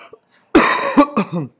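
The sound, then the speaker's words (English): A hacking human cough: one harsh, loud burst followed by a few shorter, rasping coughs in quick succession, with silence before and after. “Sorry about that hacking cough.”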